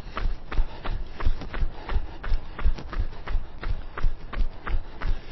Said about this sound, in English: So the last couple of minutes of a little warm-up jog.